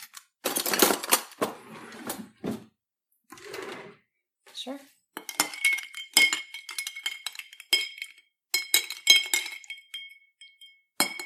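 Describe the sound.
Bright glassy clinks of a spoon stirring a cocktail of lemon juice and honey in a glass, a run of many quick ringing taps in the second half, after talk at the start.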